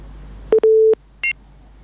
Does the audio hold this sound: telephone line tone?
yes